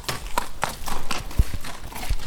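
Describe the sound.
Horses stand in individual boxes at a training stable on a stud farm. Irregular hoof knocks and shuffling thuds come through a steady background, with a few sharper knocks standing out.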